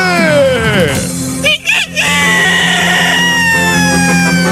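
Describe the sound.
A rooster crows loudly in a long, strained call that drops in pitch, breaks off briefly, then carries on in a sustained, harsh note.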